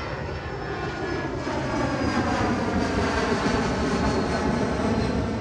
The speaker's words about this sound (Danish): Okay, så Goodman og hans orkester lander altså i Thailand.